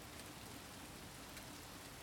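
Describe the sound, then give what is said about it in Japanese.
Rain falls as a faint, steady, even hiss of drops with no distinct individual hits, no pauses and no voices. “豆ちゃんね、時々今みたいに雨をぼーっと眺めることがあるんだけど”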